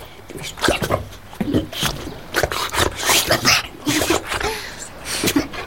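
Excited dog noises from a dog doing tricks in a garden, told to go wild: a string of snorts, yips and whimpering bursts in an irregular rhythm, fairly loud.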